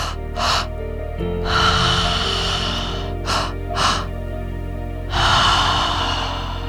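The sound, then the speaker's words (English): Breathwork-style mouth breathing in a repeating cycle: two quick, airy inhales (into the belly, then the chest) followed by a longer, relaxed exhale, the breathy rushes clearly audible. “So you'll breathe into the belly, into the chest, relax and let it go. Sounds like this.”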